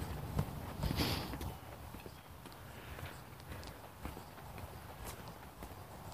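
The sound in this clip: Footsteps of someone hiking outdoors: a long run of soft, irregular footfalls with no voices, slightly louder near the start and then fairly quiet and steady.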